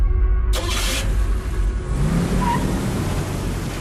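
Car speeding and revving while driven fast, a loud engine roar that holds steady throughout with no break, and no voices.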